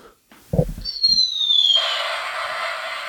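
A mouth imitation of a New Year's firecracker: brief vocal sounds, then a high whistle that falls in pitch, ending in a long, steady hiss.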